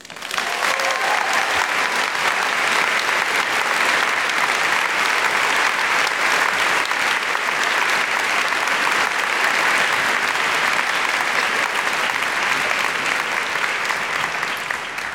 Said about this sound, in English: It's time to bring on our panel, so please join me in welcoming Lauren Ducker, Chrissy Neen, Celeste Liddell, and Quinn Eads.